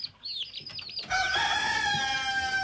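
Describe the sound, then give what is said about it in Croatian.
Chickens clucking in a quick, choppy run, then a rooster bursts into a loud, sustained crow that carries to the end. “Kokoš, pjetao, pile. Kokodakati, kukurikati, pijukati.”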